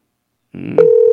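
An unanswered telephone call: after half a second of silence the line opens with a soft hum, then a loud, steady, mid-pitched ringing tone sounds and holds without anyone picking up.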